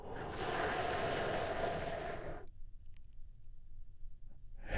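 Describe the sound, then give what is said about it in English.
A single big, deep breath drawn in during a guided relaxation exercise: a loud, steady, airy rush of air lasting about two and a half seconds that cuts off into near silence, then begins to swell again at the very end. “let's take one big, deep healing breath all together. Here we go.”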